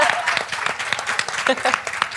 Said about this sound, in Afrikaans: Sy het duidelik al hele eie juigkommando saamgebring.